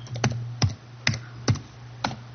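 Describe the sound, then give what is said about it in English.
Typing a password on a computer keyboard while signing in to a Google account, five separate crisp key taps spaced unevenly over a low, steady hum, with no voices. “I'd type in my password”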